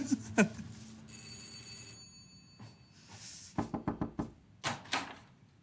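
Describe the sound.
A telephone rings with a bright, sustained electronic tone, followed later by a quick burst of knocks and a couple of heavier thuds.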